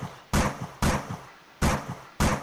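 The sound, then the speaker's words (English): Shotgun blasts: four loud, booming shots at uneven intervals, each striking hard and then decaying into a short rumble before the next. “That was a shotgun blast, everybody.”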